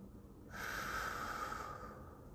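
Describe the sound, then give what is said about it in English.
A single slow, deep breath taken during a calm breathing exercise, a soft airy rush lasting about a second and a half, faint and alone with no speech. “So I just want you to all take a deep breath in, let it out.”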